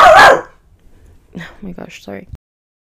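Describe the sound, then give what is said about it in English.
A single loud dog bark opens, then a person talks for the rest of the moment while the dog stays quiet. “sorry about that, my dog literally lost his marbles.”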